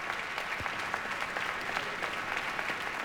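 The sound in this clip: Audience applause fills the hall after a voice-and-piano performance of a Kurt Weill song at the closing concert of an arts festival, a steady, dense wash of many hands clapping at even loudness with no voices.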